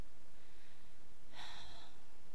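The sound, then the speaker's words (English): One sharp, breathy exhale from someone catching their breath after exertion. It is short and fairly faint against a quiet background. “Catching my breath.”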